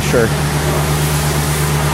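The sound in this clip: A pressure washer cleans the floors of an apartment building with pressurized water, a loud, constant hissing roar over a steady low hum, with a voice briefly heard at the start.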